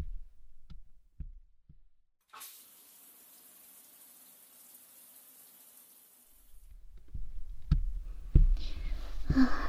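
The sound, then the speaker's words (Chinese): A hot shower runs with a steady, even hiss of falling water lasting about four seconds, set between a few soft knocks before it and low thumps and rumbling after it stops. “那我快点去洗个澡，要不然一会儿咱们两个人都得饿扁了。洗澡去了。”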